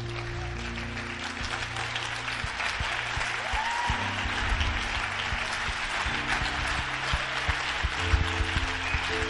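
An audience in church claps steadily and densely for about nine seconds. The clapping holds an even loudness, with low sustained tones underneath.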